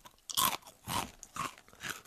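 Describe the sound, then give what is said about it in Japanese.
Crisp crunching of a shrimp cracker, a Tokyo Station-exclusive Tokyo Goen Musubi shaped like a large five-yen coin with a hole. Four distinct crunchy bites or chews follow one another, loud and dry, with no talk over them. “東京五円結びという東京駅限定のエビせんべいです。指を入れない中に、 これ 五円玉の大きい形、はい、 いただきます。エビせん、”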